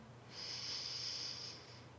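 A single long, deep inhale taken during a guided group breathing exercise: a soft, airy hiss that swells in and holds for about a second and a half, heard alone and fairly quiet.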